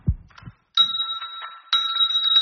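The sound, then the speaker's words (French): A dog's paw strikes a small bell hanging on a string twice, giving two bright, sustained rings about a second apart. A few soft thumps come before them. “avec sa petite patoune, elle a mis un petit coup dans la cloche.”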